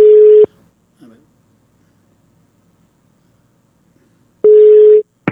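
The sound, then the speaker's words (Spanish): A telephone tone after a dropped call: two loud, steady, low-pitched beeps, one at the start and one near the end, with near silence and a faint brief noise between them. “se me cortó la llamada, denme un segundo”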